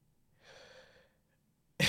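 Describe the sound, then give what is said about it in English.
A single quick breath taken by a person, soft and airy, rising briefly out of near silence before an abrupt, much louder sound cuts in at the very end. “Just had to take a breath there.”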